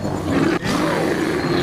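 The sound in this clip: An adult black bear lets out a loud, rough, continuous roar that is harsh and breathy. It breaks off for an instant partway through, then carries on strongly to the end.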